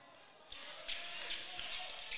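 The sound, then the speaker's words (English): A basketball dribbled on a court during a game against a zone defense: a steady series of dull, evenly spaced bounces about every half second, set against a constant soft background hiss. “Jackson dribbling the basketball here, trying to make a move here against this zone defense on the left side of the court here.”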